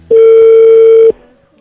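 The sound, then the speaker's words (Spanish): A telephone tone sounds while someone places a call: a single loud, steady electronic tone about one second long that cuts off cleanly. Silence follows. “A ver, le estamos marcando a Adriana en esta mañana.”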